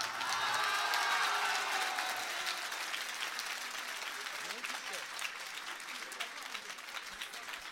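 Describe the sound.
An audience at an evening gathering claps in a dense burst of applause that is loudest at first, then gradually thins and softens over several seconds.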